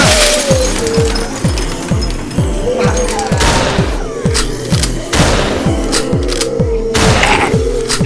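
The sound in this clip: Gunfire from a video game as zombies are shot down, many sharp booming shots repeating in a fast, steady rhythm and sounding loud and continuous.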